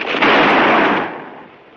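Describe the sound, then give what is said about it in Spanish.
A single revolver shot, fired as the dropped gun hits the ground in a 1954 western film. One loud, sharp blast is followed by a rumbling tail that fades away, with no voices. “Al caer al suelo, el revólver se disparó alertando a los lanceros.”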